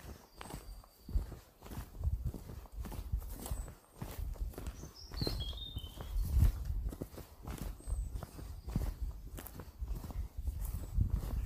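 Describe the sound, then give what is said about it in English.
Footsteps of a walker on the Cleveland Way trail, with steady, fairly soft steps continuing throughout and a few brief bird chirps partway through. “I was more than happy to come back and walk this way again. En route to the start of my next short section of Cleveland Way.”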